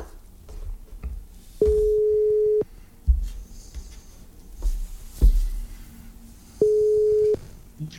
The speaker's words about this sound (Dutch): Dus ik ga hem nu bellen.